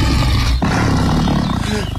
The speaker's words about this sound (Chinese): 我去，哎，真有狮子啊。